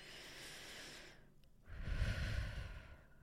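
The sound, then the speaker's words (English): A slow, deep human breath: a soft drawn-in hiss, a brief pause, then a longer, fuller and breathier exhale. The sound is faint and stands alone, with no talk. “Let's take a deep breath now together.”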